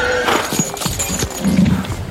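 Horses neigh and hooves clip-clop in a ceremonial street procession of armored riders on a cold winter evening in 1757: a loud whinny, then uneven hoof clops and snorting continuing throughout.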